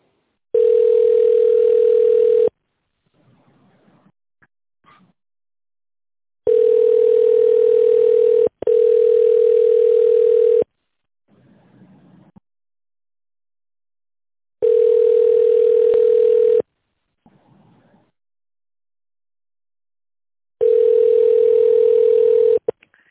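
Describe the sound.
Telephone ringback tone plays while an automated line connects the call: five long, steady, single-pitched tones, two of them back to back, separated by quiet gaps with faint sounds between.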